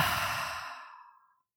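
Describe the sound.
A deep, breathy exhale during a guided breathing exercise, loud at first and slowly fading to silence over about a second and a half.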